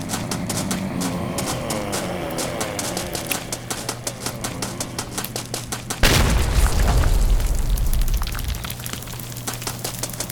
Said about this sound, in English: I forgot the grenades do more damage.